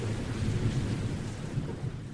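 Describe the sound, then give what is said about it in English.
Thunder rolls low and steady with rain noise as a storm returns over a flooding shoreline where strong waves are surging up between houses. It is a dense, continuous rumbling roar with no sharp individual claps. “Hey, the rain stopped. It's very quiet. I can see the blue sky right now. Wait. The storm's back!”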